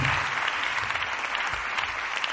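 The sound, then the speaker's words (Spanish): Theatre audience applauding a guest on a live show, a loud, dense burst of clapping from many hands that continues steadily throughout with no talk over it. “Un abrazo y un aplauso para ella, por favor.”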